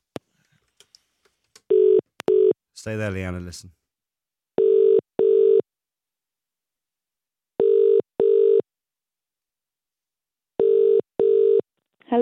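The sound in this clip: Telephone dialing and ringing: a few soft clicks, then a steady double-pulse ring repeating four times at even intervals. A voice speaks briefly after the first ring, and a fifth ring starts at the very end.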